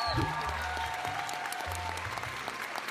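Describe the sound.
Studio audience applause breaks out as a dense burst of clapping, with a voice briefly heard underneath.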